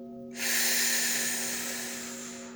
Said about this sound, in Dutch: Adem diep in en adem diep uit.